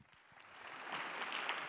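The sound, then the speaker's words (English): Audience applause welcoming a comedian to the stage: faint, hissy clapping that builds steadily and stays even, with no voices over it. “So please, everybody, welcome Marlo to the stage. Give him a hand.”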